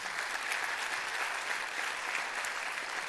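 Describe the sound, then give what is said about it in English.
Applause at a church welcoming the Loma Linda Academy Wind Symphony, a steady, even wash of clapping from the audience, fairly soft and unbroken throughout. “I want to welcome Loma Linda Academy Wind Symphony. Let's give them a hand, everyone.”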